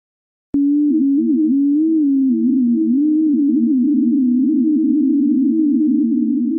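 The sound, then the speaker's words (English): Sped-up seismic vibrations of wind over snow on Antarctica's Ross Ice Shelf, sounding as a sharp click followed by a steady low hum that wavers up and down in pitch, loud and alone throughout. “That's the sound of Antarctic snow.”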